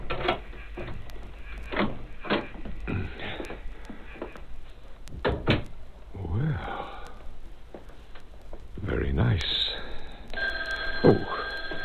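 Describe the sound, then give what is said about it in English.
Telephone ringing in a haunted house: a few bright, shrill electronic ring bursts sound near the end, after breathy sighs and soft movement noises. “Never get away from the telephone, even in a haunted house. Hello?”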